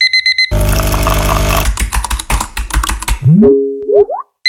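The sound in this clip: Typing on a computer keyboard in weekday office life, opening with repeated electronic alarm beeps, then a dense loud burst and rapid clicking keystrokes, ending with several rising electronic tones.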